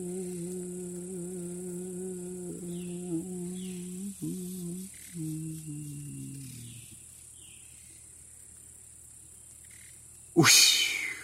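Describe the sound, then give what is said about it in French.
Jungle frogs and insects: a steady high insect drone runs throughout. Repeated low croaking frog calls fill the first several seconds and then stop, and a sudden loud burst cuts in near the end. “on vous laisse avec les bruits de la jungle”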